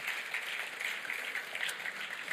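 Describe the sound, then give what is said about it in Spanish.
Faint applause from a church audience, a soft, even patter of many hands that holds steady for the whole stretch without clear peaks. “Denle un aplauso al Señor en esta noche.”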